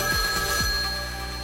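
Telephone ringing with an incoming call: a steady electronic ring with bright, sustained tones that carries through the whole clip at an even level, with no talk.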